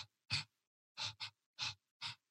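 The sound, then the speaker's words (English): Quick, shallow breaths of a beatboxer working them into a beat: five short, hissy puffs in an uneven rhythm, very faint, with no talking. “So if I'm doing a beat like for that, I'm actually breathing really shallow. I'm actually just going,”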